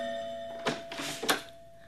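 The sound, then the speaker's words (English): A doorbell rings at home, a few bright chime strikes rising over a steady tonal hum, with no talk. “I was at home when my doorbell rang.”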